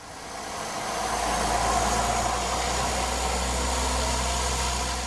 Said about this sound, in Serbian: Zvuk motora, aviona i nebo iznad Banja Luke ispunjeno padobrancima